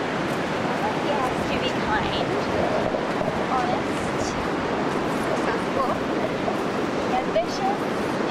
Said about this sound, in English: So hard to hear over the wind.